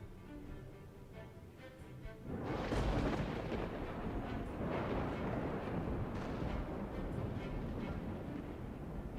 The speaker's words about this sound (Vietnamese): Từ trong làn khói xám mù mịt, những tia sét liên tục đánh xuống.